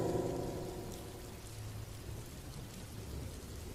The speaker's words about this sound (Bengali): সে rail লাইনের দিকে তাকাল ঝড় জলের রাত মুসলধারায় বৃষ্টি হচ্ছে